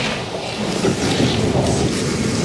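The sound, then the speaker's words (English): Steady rain pours in a loud, continuous hiss with a deep rumbling undertone, unbroken for the whole stretch and with no voices over it. “Thank God for the rain.”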